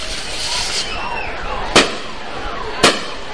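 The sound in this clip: Fireworks explode at the Nejapa fireball festival in El Salvador: faint whistling fizz over steady crowd noise, then two sharp, loud bangs about a second apart.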